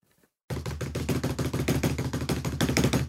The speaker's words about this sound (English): Would you like a drum roll? No, I feel we can... Say it again. Okay. Hang on. Drum roll.